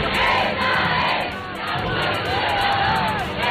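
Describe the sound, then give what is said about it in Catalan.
A crowd of over half a million young people at a papal gathering in Madrid roars continuously, a dense wash of massed voices with scattered shouts rising above it, loud from start to finish. “El so de milers de joves, hi ha més de mig milió de persones escoltant a aquesta hora el papa.”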